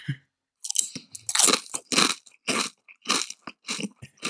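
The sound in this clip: Loud crunching and chewing of spicy snack chips, with many crisp, brittle bites in an uneven rhythm separated by short pauses.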